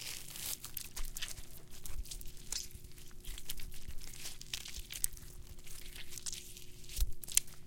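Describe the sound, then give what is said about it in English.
Something being ripped into pieces: a continuous crinkling, tearing crackle runs for several seconds, with a few sharper snaps toward the end. “Now rip that fucking thing in the cut pieces.”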